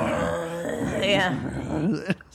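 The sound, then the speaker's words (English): A voice imitates a man growling with a short, rough, throaty rumble lasting about two seconds before trailing off. “I think he's just growling. All I hear is like,”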